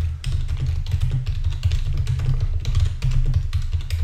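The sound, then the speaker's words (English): Typing text on a computer keyboard: a steady stream of many quick, light key clicks over a low continuous hum, with no voices. “I can also type some text.”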